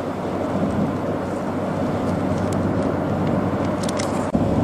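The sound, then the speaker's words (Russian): Heavy highway traffic flows toward San Francisco, passing as oncoming vehicles beside a moving car: a steady, loud, even rumble of engines and tires that continues without a break. “Довольно долго, друзья, можно вот так ехать и наблюдать большой встречный поток, идущий с юга на север, в сторону Сан-Франциско. Мы находимся на хайвее”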